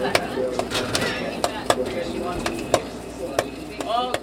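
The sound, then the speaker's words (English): A popcorn machine from the original theater pops fresh popcorn at a Minnesota drive-in, with many sharp, irregular pops and clicks scattered over a low mechanical hum. “The sound of fresh popcorn.”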